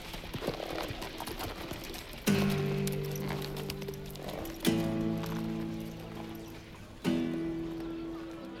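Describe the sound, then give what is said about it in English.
Horse hooves clip-clop in a steady trotting rhythm as a rider rides away, with three loud sustained musical chords swelling in one after another over the hoofbeats. “With a nod and a wave, I rode away in the direction of Cuyuma.”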